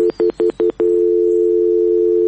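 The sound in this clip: A telephone line tone after a caller's line drops during a call-in: five short, evenly spaced beeps, then one steady, loud, unbroken tone that holds to the end.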